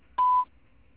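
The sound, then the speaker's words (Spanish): A single short beep from a voicemail system marks the start of message recording: one steady pure tone, lasting about a quarter second, alone against quiet line hiss. “Deja tu mensaje después del tono.”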